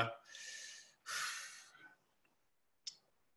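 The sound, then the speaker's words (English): A quiet breath drawn in two long, airy pulses, then silence and a single short click afterward. “No, I'm just taking a breath here.”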